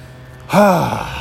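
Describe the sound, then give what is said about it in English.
A speaker takes one audible breath, a voiced, gasp-like intake that starts abruptly and trails off like a sigh, heard alone without words. “Sometimes I just need to take a breath during these solo ones.”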